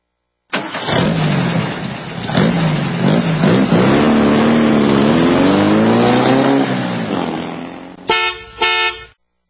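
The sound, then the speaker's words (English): A car engine revs hard, a loud, rough roar whose pitch climbs over several seconds before settling. It is followed at the end by two short, sharp blasts that sound like a car horn. “I'm glad you climbed in. Riding shotgun with me here today at Auto World.”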